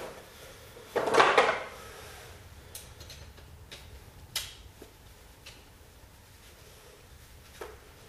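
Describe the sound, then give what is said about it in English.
A clamp is screwed on and tightened: a brief, faint scraping rattle, then a few sharp, isolated clicks spaced well apart against quiet background noise. “screw on the clamp, get it down in a better place where it'll be easier to uh, tighten it, loosen it”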